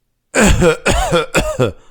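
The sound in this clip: A person imitates a cough with their voice, producing three loud, throaty, voiced coughing bursts in quick succession.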